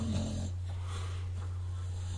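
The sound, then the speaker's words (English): A dog breathing heavily, with faint, rough, snoring-like breaths over a constant low hum. “this is my dog breathing heavily.”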